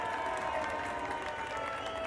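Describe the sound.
A crowd of astrogazers applauds and cheers after a space battle is won. The applause is a dense, continuous wash of clapping and faint voices, held at a steady, fairly soft level.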